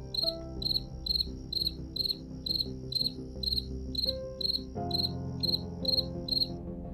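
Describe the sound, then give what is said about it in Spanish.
Crickets chirping in the early hours of the night: steady, evenly spaced high-pitched chirps that repeat in a regular rhythm throughout, alone with no voices. “Así que en la madrugada, que solo se oían los grillos,”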